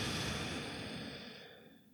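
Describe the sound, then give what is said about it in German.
A single long, soft exhale during a guided yoga and meditation session with Om Shanti chanting, breathy and faint, slowly fading away over about two seconds. “Atme nochmal ein und aus.”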